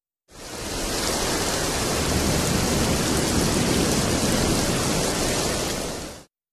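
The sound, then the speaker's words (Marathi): Rain falls in a dense, even hiss. It fades in quickly, holds steady for about six seconds and then cuts off, with no talk or other sounds. “एक, पाऊस।”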